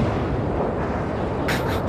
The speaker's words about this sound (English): I think I can analyze that sound. That's a rocket launch. Correct.